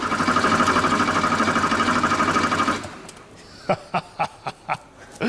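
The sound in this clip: A German-made car's engine is cranked: a loud, steady whirring chatter runs for about three seconds, then cuts out. Five short, sharp bursts follow at an even pace before a louder burst at the end.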